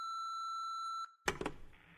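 An answering machine gives a single long, steady electronic beep before a message. The beep holds one pitch for about a second, cuts off, and is followed by a short burst of clattering handling noise.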